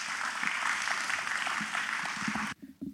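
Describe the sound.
Applause from a church audience welcoming a young speaker up to give a confirmation testimony at a morning service: dense, steady clapping that holds for about two and a half seconds, then stops abruptly.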